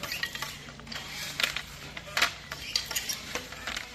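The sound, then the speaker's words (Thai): Kī krathop handloom weaving cloth in Sai Buri, Pattani, Thailand, giving sharp wooden clacks and knocks at a loose, uneven beat over a low steady hum. “เสียงกระทบของกี่ทอผ้าดังเป็นจังหวะสะท้อนเรื่องราวของภูมิปัญญาที่สืบทอดจากรุ่นสู่รุ่น”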